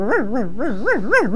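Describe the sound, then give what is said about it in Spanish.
A small dog whines in one continuous, wavering cry, its pitch swinging up and down about five times in quick succession with no talk over it. “Ah, viene el perrito.”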